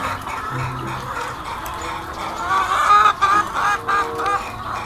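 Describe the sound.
A hen on an organic poultry farm clucks in a run of short, repeated calls that grow louder and more insistent toward the end, with some faint background noise underneath.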